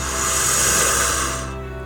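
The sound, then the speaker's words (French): One long, deep breath during a guided relaxation exercise, a loud breathy hiss that swells and then gradually fades over about two seconds, with no other sound. “Alors prenez une grande inspiration maintenant.”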